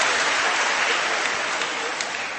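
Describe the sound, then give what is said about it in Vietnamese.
Dense, steady applause from an audience at a church gathering fills the whole stretch, a continuous wash of many hands clapping at even loudness with no voices on top. “Một tràng pháo tay nữa thưa anh chị em và thưa các bạn.”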